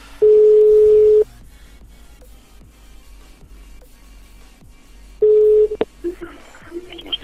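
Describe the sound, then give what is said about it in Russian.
Telephone line tones while dialing a number: two long steady electronic beeps separated by a quiet stretch with faint clicks, followed by a few short blips. “Так, сейчас еще набираю по одному номеру.”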